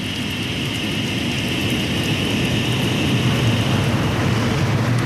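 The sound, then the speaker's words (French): Water trickles and spatters onto asphalt from the exhaust of a hydrogen-powered taxi, a continuous dense hiss that holds steady and fairly loud throughout, with no pauses and no voices. “Cette eau qui ruisselle sur le bitume, c'est ce que rejette le véhicule à hydrogène de Nabil Amaouche”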